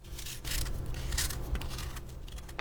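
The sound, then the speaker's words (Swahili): Rasping scrape of radishes being peeled for a food garnish, a run of rough, papery strokes of moderate loudness, sounding on their own without voices. “Sasa tutatengeneza vipambio vya chakula. Kwanza menya figili.”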